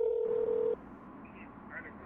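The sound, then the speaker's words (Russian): A steady telephone tone sounds for under a second as a phone number is dialed, then gives way to low hiss with faint murmuring. “Вот у меня визитка Вячеслава, я набрала его номер, позвонила”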